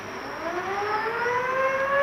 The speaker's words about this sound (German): Sirene! Das ist der Krassin!